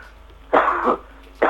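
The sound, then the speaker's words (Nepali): Coughing comes in a few loud, harsh bursts. A long rough one comes first and a second starts near the end, with quiet between them. “Sorry मेरो यहाँ खोकी लगाइरहेछ है.”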